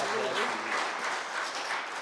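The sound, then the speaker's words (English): Congregation clapping during a church service, a steady burst of many hands applauding, with a voice briefly audible at the start. “Give her a hand clap of appreciation as she comes, all right?”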